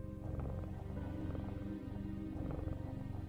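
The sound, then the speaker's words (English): A cat purrs after being scratched: a faint, steady, low rumbling purr that runs continuously and evenly throughout, with no voices over it. “it doesn't seem to really react at first when you sort of like pick it up but after a little bit of scratching, it begins to purr.”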